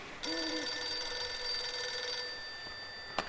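A telephone rings for an incoming call, one sustained bell-like ring lasting about two seconds at moderate level, followed by a short click near the end.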